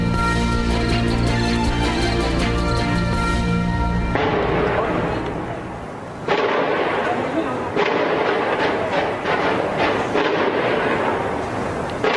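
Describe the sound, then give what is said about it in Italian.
Loud gunshots and blasts from a police raid in the Saint-Denis district of Paris: continuous crackling, booming noise broken by a few sharp bursts. “Che sentite sono i botti, gli spari che ci sono stati nel blitz di oggi a Parigi, nel quartiere di Saint-Denis”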